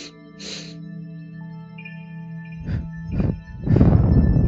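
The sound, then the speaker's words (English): A few short breaths in through the nose during a sound bath meditation, breathy rushes that grow into a longer, louder breath, all over a steady, sustained humming tonal drone. “take three short breaths in through your nose, hold for three, and exhale out for three.”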